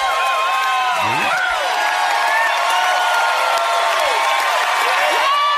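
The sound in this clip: An audience cheers and applauds in a live Tennessee music recording, a dense, loud and continuous wash of clapping, whoops and yells that never lets up.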